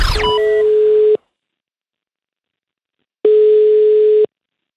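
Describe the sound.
Ringback tone of a telephone call being dialled out: two long, steady electronic beeps, each about a second, separated by a pause of silence, after a brief sweeping sound at the start.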